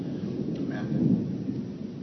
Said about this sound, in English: I think that's a sign from God with this thunder out there.